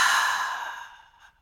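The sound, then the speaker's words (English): A single audible exhale through the mouth, a breathy, airy sigh that starts strong and tapers away over about a second and a half, heard alone. “And take an inhale through your nose. And exhale through your mouth, make it audible.”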